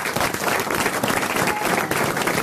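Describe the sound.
An audience applauds to welcome a guest, with dense, steady clapping that stays loud and even from start to finish.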